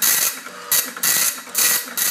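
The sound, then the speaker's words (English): Rasping, buzzing print passes from a still-working dot matrix printer hooked to an old floppy-drive computer. The loud bursts come in a steady rhythm, each separated by a short pause, and no voices are heard. “It's got a floppy disk drive. It's actually connected to a dot matrix printer. Still works.”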